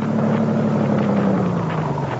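A car engine hums with a loud, steady low drone whose pitch sinks slowly as it runs, with no voices heard.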